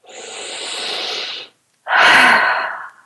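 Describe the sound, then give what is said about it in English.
A big deep breath taken slowly, heard as two long airy breath sounds with a short pause between them. The second is louder and more forceful, with no talking. “Big deep breath.”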